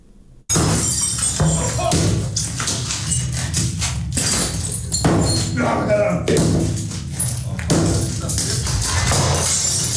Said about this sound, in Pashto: په لاتویا کې په یوه خونه کې خلک شیان ماتوي.